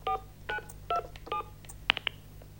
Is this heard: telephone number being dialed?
yes

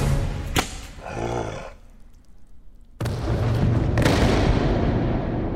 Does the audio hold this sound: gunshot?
yes

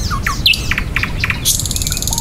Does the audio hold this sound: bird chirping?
yes

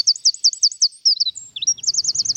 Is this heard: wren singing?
yes

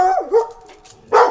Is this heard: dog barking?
yes

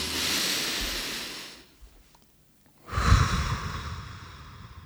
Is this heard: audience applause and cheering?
no

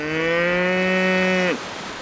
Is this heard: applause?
no

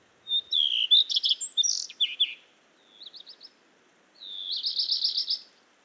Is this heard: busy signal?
no

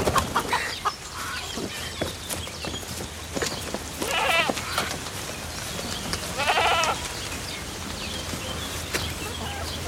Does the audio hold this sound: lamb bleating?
yes

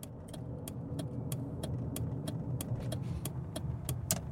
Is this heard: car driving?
yes

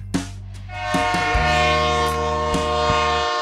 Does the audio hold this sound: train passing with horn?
yes

